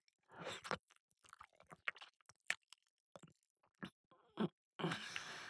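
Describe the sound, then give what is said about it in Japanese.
Gentle ASMR ear-nibbling bites, soft wet mouth and chewing sounds in a series of short, quiet bursts, ending in a longer, rustling burst. “いただきまーす。大丈夫。甘がみにしといてあげるよ。”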